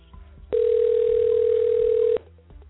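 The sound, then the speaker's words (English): A telephone gives a single steady electronic tone, loud and unbroken for about one and a half seconds, then stops abruptly, leaving low background hum with no talk over it. “My phone just went to ring”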